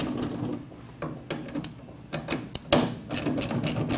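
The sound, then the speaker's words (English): Ratcheting of a socket wrench backing out two 8mm bolts inside the opened tailgate of a 2004-and-up Ford F-150: rapid, uneven mechanical clicking and ticking runs throughout, with a few louder knocks and no voices. “You need to remove those. They're both 8mm. Grab a socket wrench, pop those guys out.”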